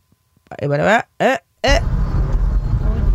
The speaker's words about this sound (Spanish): El audio que tenemos está, obviamente se oye mucha interferencia porque pues vienen manejando, pero sí se alcanza a escuchar poquito de la discusión.